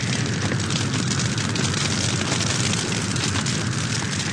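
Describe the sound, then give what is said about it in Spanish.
Volcanic eruption sound effect in a radio drama: a loud, continuous roar of dense rumbling and crackling noise that holds steady throughout without pause. “No es el resplandor de Dios, sino la erupción del volcán. ¡Miren! ¡Está echando fuego!”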